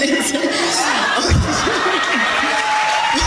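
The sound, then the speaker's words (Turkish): Crowd cheering and whooping at a June ceremony, rising behind a speaking voice and staying audible under the talk throughout. “mesela arkadaki çığlıkları duyuyor musun? Alkış.”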